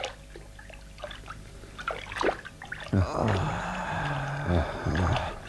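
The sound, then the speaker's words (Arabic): Water trickling from a spring in a soft, continuous flow with light splashing pulses. Voices are heard at times. “وبعدين فضلوا ماشيين ماشيين ماشيين لحد ما لقوا عين ميه وقعدوا يرتاحوا شويه”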